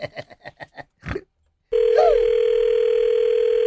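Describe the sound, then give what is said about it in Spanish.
Telephone dial tone when calling back: a steady, loud, unbroken hum begins after a few short sounds and a brief silence, then holds evenly to the end. “Vamos a marcar atrás, atrás.”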